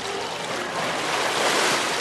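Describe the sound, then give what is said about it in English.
Splashing water in a pool as Michael Phelps swims with kids he is teaching after a press conference. It is a steady, dense wash of spray and churn with no distinct single strokes standing out. “While dozens of photographers snapped his picture, Phelps did what he does best. He swam.”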